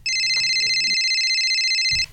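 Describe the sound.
Mobile phone ringing with an incoming call: a steady, high electronic tone held unbroken for about two seconds, loud above a faint low rumble.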